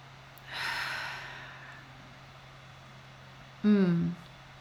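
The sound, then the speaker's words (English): Breath drawn in and let out during a breathing exercise: a soft, airy inhale lasting about a second, then after a pause a louder, voiced exhale like a sigh, over a faint steady hum. “Inhale and exhale.”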